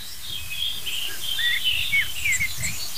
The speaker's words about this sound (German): Stattdessen höre ich schimpfende Amseln.